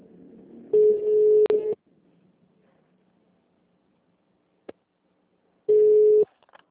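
Telephone line tones after a dropped call: two steady mid-pitched beeps separated by a long stretch of faint line hiss, with a single brief click between them.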